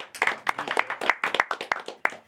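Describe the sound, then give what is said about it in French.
A small group claps at the end of a filming session after a game. The sharp, distinct claps come in an uneven, quick patter that carries on without a break. “Franchement, ça s'applaudit.”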